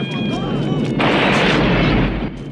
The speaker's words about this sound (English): More cars explode. Watch yourself! We're all gonna blow!